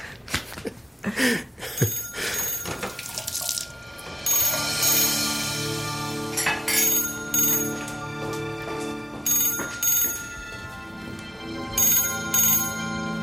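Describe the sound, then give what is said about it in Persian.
A telephone bell rings inside a family home, bright metallic ringing bursts repeating over a steady tonal background and continuing throughout. “عزیزم برو گوشی رو بردار.”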